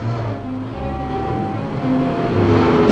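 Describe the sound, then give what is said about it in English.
Military trucks drive with a steady, low engine rumble that grows slightly louder toward the end. “At a small crossroads, the first truck drives straight on, the second turns right, and the third left.”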